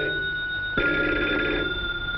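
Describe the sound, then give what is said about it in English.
Telephones ringing in a newspaper press room: a steady, bright electric bell ring that runs throughout, with a second ring joining partway and thickening the sound. “In the press room, phones ring and cigarettes burn in ashtrays alone.”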